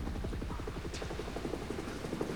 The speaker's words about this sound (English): Chopper's coming back around